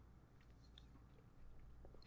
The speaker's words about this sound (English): Mmm. What a burrito. Am I right? Yeah, you know, I got to taste it before it all came,